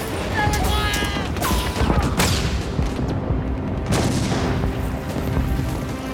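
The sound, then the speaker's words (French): Gunfire from Japanese shooters firing on a company from positions across a mountain in wartime combat, a few sharp booming shots cracking out over a dense, rumbling background of battle noise. “Il y a des centaines d'emplacements de tir sur la montagne. Les tireurs japonais font payer le prix fort à la compagnie.”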